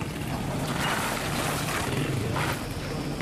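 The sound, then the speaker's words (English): A French army vehicle passes on a road beside a sandy basketball court in Gao, Mali, giving a steady, broad rumble of engine and road noise that holds for the whole stretch without a clear rise or fall. “As a reminder of the Islamists' continued presence, a French army vehicle passes by on the road opposite the Sandy Court.”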